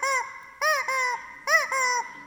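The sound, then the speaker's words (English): A rubber chicken is squeezed, giving five loud, nasal, honking squawks: one alone, then two quick pairs. The sound is heard alone, with no talk. “Rubber chickens, you can use them for just about anything.”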